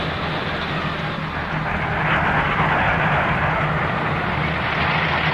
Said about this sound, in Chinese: 划破冲锋的喷气式机群也是我国制造的，